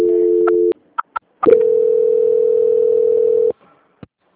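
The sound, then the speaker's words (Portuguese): A telephone line tone sounds while a call is transferred: a steady tone is followed by a few short clicks. A second sustained tone holds for about two seconds, then a last faint click. “Aguarda só um minutinho na linha que eu vou transferir você”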